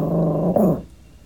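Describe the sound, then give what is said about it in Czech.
A female chihuahua growls in a low, steady, continuous rumble, then gives one sharper bark-like burst near the end before the sound fades away. “No tak my si ještě jednou připomeneme to její vrčení, štěkání”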